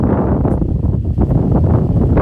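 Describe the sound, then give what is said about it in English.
Strong outdoor wind buffets the microphone, producing a loud, low, uneven rumbling roar that swells and dips in gusts. “And the wind is blowing right now, and I forgot to bring my headphones. So you'll probably be feeling this strong wind blowing.”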